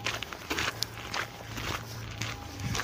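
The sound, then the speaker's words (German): Footsteps walking at a shrine in Kyoto, Japan: a series of soft, fairly even steps over a steady low hum and background hiss, with no talking. “Sonst hat man jetzt nur meine Schritte.”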